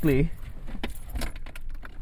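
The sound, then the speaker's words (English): Keys jangle as someone gets into a car, a short tonal sound at the start followed by a couple of seconds of loose metallic clinking and rustling. “So right now I'm getting into the car.”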